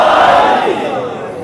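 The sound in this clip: A crowd at a religious gathering shouts a slogan in unison. The massed voices are loud and full at first, then ease off slightly over the brief burst.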